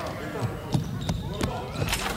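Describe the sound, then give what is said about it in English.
Basketball impacts from dunks during a workout: a few sharp, punchy ball hits ring out over a continuous background with voices. “Anthony finishes his workout with a couple of monstrous dunks.”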